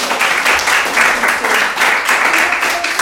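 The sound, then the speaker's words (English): Audience applause at a talk, a round of clapping for a participant: dense, steady clapping that stays loud and even for the whole stretch, with no pauses and no distinct voices. “Again, another round of applause for Sue.”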